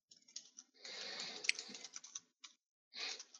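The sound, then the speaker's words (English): Quiet typing on a computer keyboard while notes are taken: soft, fast keystrokes in dense bursts with brief pauses between them, with no talk. “I'm writing frantic notes here, I'm not gonna lie.”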